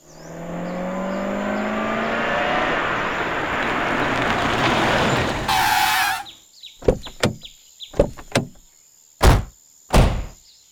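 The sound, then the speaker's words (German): A car speeds past on a road running along fields and a forest, building to a loud rush before stopping abruptly. Several sharp clicks and clunks follow, ending in two heavy door thuds as two men get out. “Ein Auto fährt blitzschnell vorbei. Es hält direkt vor mir an. Zwei Männer steigen aus.”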